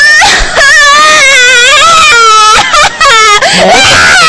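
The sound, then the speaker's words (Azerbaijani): A young girl cries in high, wailing sobs that rise and waver almost without pause, with a few brief breaks for breath near the end. “Nə oldu, ay kızım, niyə ağlayırsan?”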